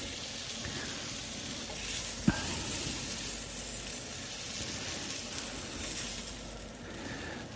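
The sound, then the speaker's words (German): Onions sizzle in oil in a pot over the browned meat drippings, giving a steady, dense hiss throughout with one brief clack partway through. “bevor der Bratensatz unten im Topf zu dunkel wird, geben wir natürlich jetzt die Zwiebeln dazu.”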